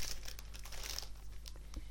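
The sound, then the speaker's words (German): A crinkly plastic snack bag of peanut flips is opened with several faint crackling, tearing rustles over a low steady hum. “Und heute ist der Zeitpunkt gekommen, wo ich die Tüte öffne.”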